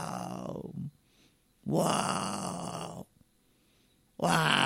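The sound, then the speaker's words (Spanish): A voice imitates snoring with three loud, rasping, grunting bursts separated by short quiet gaps, the last one cut off at the end. “Esto duerme, ronca,”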